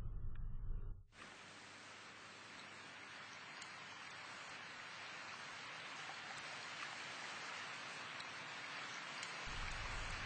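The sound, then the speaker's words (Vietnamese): Heavy rain falls on a gloomy October day as a steady, even hiss that starts abruptly after a second of low hum and then continues unbroken at a constant level, with no voices. “Trời đang tiết tháng 10, một ngày nặng nề, mưa nhiều.”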